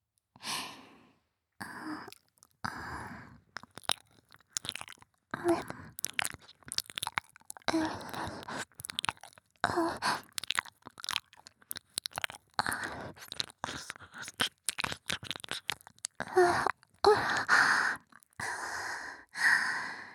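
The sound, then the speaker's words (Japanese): Wet ASMR ear-licking mouth sounds: many short, irregular smacks, slurps and soft crunchy clicks mixed with breathy sighs, fairly quiet throughout with brief pauses between bursts. “私の耳舐めて頭の中が空っぽになるくらい癒されちゃってくださいね。”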